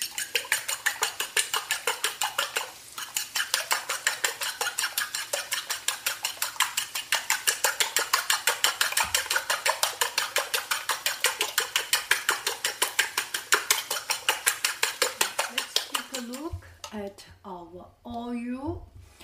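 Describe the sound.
Rapid, steady clinking as eggs are beaten with salt, pepper and cumin seed, with many even strokes in a quick rhythm, followed by a brief voice at the end.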